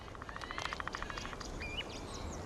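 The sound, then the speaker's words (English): Faint chirps from a pair of pied flycatchers at their nest in the hollow of an old tree, a few short high tweets scattered over a soft background hiss. “This pair of pied flycatchers hides their nest in the hollow of an old tree.”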